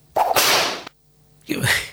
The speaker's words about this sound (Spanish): Ahí está el top. El top. Le están pegando con un látigo. Es un top violento este.